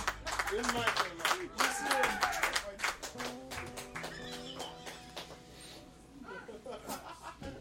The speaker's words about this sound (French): Un applaudissement.